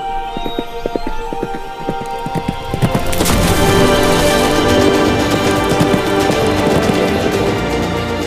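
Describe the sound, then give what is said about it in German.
Hooves of a white horse ridden through a forest, a rhythmic clip-clop that becomes louder and denser after a few seconds and keeps up a steady, busy patter to the end. “Im Königreich Floravia reitet Prinzessin Emilia auf ihrem Schimmel durch eine märchenhafte Waldlandschaft.”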